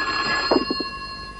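A telephone rings inside a house in Rockaway, a bright tone with a few short pulses over a steady ringing hum, alone and without talk.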